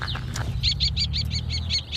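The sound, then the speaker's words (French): A common kestrel hunting over a fallow field calls in a rapid, even series of high, sharp notes after a few fainter chirps. A steady low rumble runs underneath. “c'est un faucon cresserelle, il va droit. Bah, il chasse au-dessus de la jachère, en fait.”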